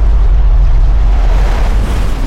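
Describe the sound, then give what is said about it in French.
A deep, loud roar of a snow avalanche pouring into a crashed aircraft fuselage at night rolls on without a break, a dense low rumble with no distinct impacts. “Soudain, des tombereaux de neige pénètrent dans le fuselage et ensevelissent tout. une avalanche.”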